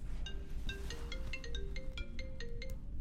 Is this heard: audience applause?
no